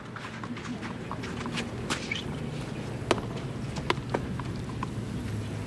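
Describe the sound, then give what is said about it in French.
A tennis player on a clay court knocks the racquet against the soles of their shoes to clear off clay, making a few sharp, quick taps over a low, steady background. “Tape sa raquette sous ses semelles pour enlever sa terre battue.”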